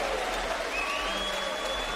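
An audience applauds a jazz symphony orchestra at a live theater concert, with dense, even clapping that stays fairly faint and steady throughout.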